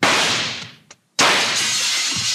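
Window glass shattered by a gunshot on a street near a hardware store: two loud, noisy crashing bursts split by a short silence, the second cutting in abruptly and staying loud to the end.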